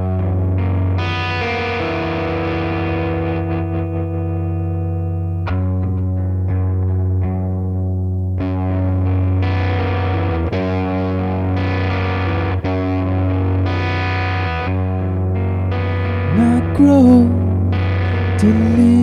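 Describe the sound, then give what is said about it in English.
Electric guitar played through effects with distortion and chorus, slow ringing chords struck one after another and left to sustain over a steady low drone, with short quiet gaps between phrases. “So stick around if you want to hear some guitar playing.”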